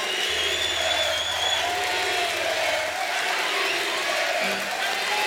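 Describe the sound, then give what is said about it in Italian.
Applause from an audience, a dense, even wash of clapping that holds at a steady level throughout, with a low steady hum beneath it. “Un applauso.”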